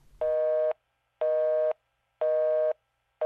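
Telephone disconnect tone after the other party hangs up: three evenly spaced, steady mid-pitched beeps, each about half a second long, with a fourth just starting at the end, clear and alone.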